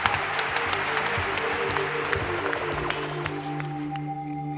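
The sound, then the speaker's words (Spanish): Audience applause: many hands clap in a steady, crackling patter at moderate level and thin slightly toward the end, with a low sustained tone running beneath. “nuestro aplauso”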